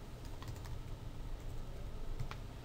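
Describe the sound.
Typing on a computer keyboard in Word, faint rapid key clicks in an uneven rhythm that continue throughout.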